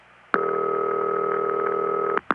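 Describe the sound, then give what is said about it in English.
A US Bell System telephone ring known as City Ring: one long, steady, dull buzzing tone lasting nearly two seconds, then the clipped start of the next ring at the very end. “Well, this is the ring that the phone freaks called City Ring. It's very dull.”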